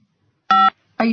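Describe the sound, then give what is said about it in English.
Two short electronic phone beeps signalling an incoming call, steady clear tones with an even pause between them and nothing else around them. “there's a call coming in or something. I don't know what that sound is.”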